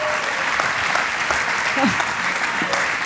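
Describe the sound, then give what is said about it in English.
Dense applause from an evening ministry gathering giving a standing ovation to a speaker welcomed onto the platform, loud and continuous throughout with voices mixed in. “A standing ovation over there.”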